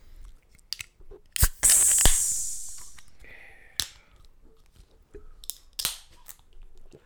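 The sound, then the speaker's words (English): A beer can is cracked open and its tab breaks off: sharp clicks, then a bright hiss of escaping gas that fades over about a second, followed by scattered faint clicks and taps. “now's the time to pop that top if you want to crack a cold one”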